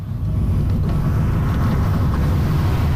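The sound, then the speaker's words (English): Car driving up a steep hill in Kigali, Rwanda, its engine a loud, constant low rumble with no voices. “Another of those hills. Yes, yes. I mean, this Kigali keeps you fit. You need a good gearbox as well in your car.”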